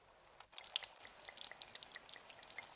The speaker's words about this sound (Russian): Вылив содержимое, ставит бутылку на бетонное основание.